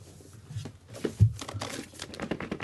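Plastic wrapping being crinkled as a board game package is opened: irregular rustles and crackles, some sharper than others, with no talking over them.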